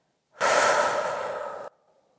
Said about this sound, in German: Fülle deine Lungen mit frischer Energie und spüre, wie sich deine Brust weitet. Atme dann langsam aus.